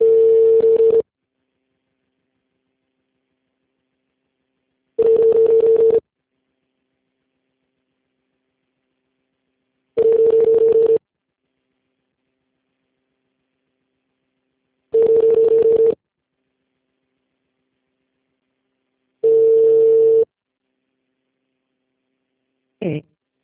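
Telephone ringback tones while a call connects: five long, steady buzzing tones of about a second each, spaced roughly five seconds apart, then a brief clipped blip at the end.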